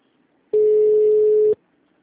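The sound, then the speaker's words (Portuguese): A single steady telephone ringing tone as a call is placed, low-pitched, about one second long, loud and alone against near silence. “tô ligando aí pra você”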